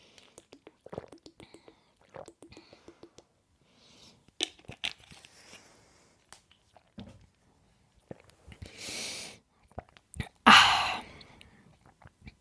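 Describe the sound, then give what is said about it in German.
Someone takes a sip of a drink to wash down a raspberry seed. Faint mouth and cup clicks lead to a soft slurp and then a louder breathy gulp, all quiet and sparse. “Ich trinke jetzt einen Schluck und hoffe, dass ich dieses blöde, dämliche Himbeerkörnchen loswerde.”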